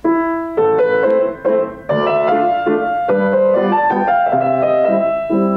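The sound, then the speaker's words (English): A solo piano plays a waltz in A minor: a singing melody over a repeating bass-and-chord pattern in a lilting triple rhythm, clear and fairly loud with no voices. “One of the most recent videos I made for Top Music was the Chopin Waltz in A minor, Opus Posthumus. Of course, it sounds like this.”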